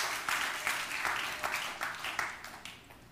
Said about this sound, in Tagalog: Palakpakan mo yung Panginoon.